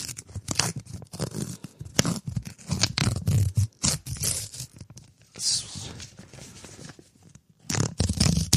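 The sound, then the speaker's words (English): An envelope ripped open by hand, heard as many rough bursts of paper tearing and crinkling that come in uneven spurts with short pauses between them. “Then we rip it open here. Just some slight tearing.”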